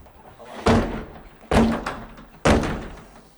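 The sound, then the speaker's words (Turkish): Heavy thuds as a locked terrace door is forced open with shoulder blows and kicks: three loud, sharp impacts about a second apart, each followed by a short rattling decay. “kapıyı omuz ve tekmelerle kırdı. O anlar cep telefonu kamerasına yansıdı.”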